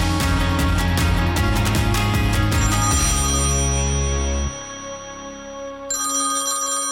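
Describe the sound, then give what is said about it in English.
A hotline telephone rings with a bright, loud electronic ring of sustained tones. It drops away partway through, then comes back briefly at the end. “whenever I hear the Eric Allen gold dropping hotline ring, my heart just, it skips a beat”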